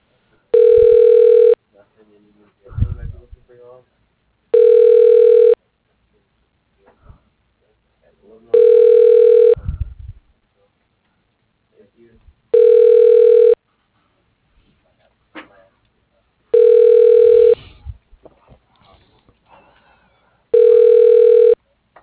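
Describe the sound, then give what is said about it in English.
An unanswered telephone call rings out as six long, steady ringback tones, each about a second long and roughly four seconds apart, with a voice talking in the gaps. “Sir, she appears to not be picking up. Let me try one more time.”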